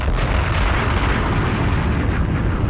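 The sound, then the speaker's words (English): A bomb explosion sound effect dropped in by a DJ: a dense, loud, steady roaring rumble that fills the whole stretch without a break, with no voices over it. “Casino, drop a bomb on him.”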